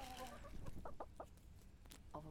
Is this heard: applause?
no